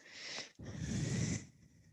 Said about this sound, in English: Breathe in. Good. Breathe all the way out.